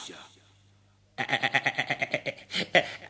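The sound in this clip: A ram bleats in one long, quavering call built from many rapid pulses, loud and on its own after a near-silent start, closing with a couple of stronger bursts.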